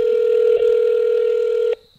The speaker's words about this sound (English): I mean, it's ringing longer. So I know. Be calling.